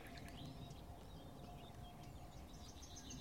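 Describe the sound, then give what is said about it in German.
Faint nightingale song in the background: scattered high chirps and trills over a soft, steady hiss. “Und immer wieder so plätschernder Gesang im Hintergrund. Einmal ist es die Nachtigall,”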